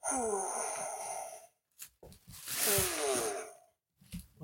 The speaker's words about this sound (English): I also got a sigh machine. So here is a shocked sigh. Oh, good Lord. Here's a female sigh.